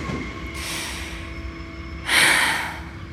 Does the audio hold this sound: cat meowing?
no